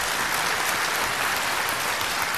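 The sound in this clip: Congregation applauding in church during a first communion service: a steady, dense burst of many hands clapping at even loudness throughout.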